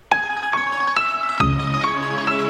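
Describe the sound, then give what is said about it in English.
An Italian film song begins with a sharply struck note, then sustained melodic tones, with a fuller, lower-pitched layer joining midway and ringing on. “This one is from a little-known film. You may or may not have heard of it. It's called The Godfather. And it sounds like this.”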